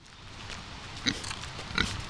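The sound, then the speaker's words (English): Pigs on a pig farm grunting steadily, with two sharper, louder squeals or oinks standing out partway through. “Ava Teague's pig farm in Longmont”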